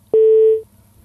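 Busy tone after a phone call disconnects: a single steady, mid-pitched beep lasting about half a second, loud and alone, with no voices.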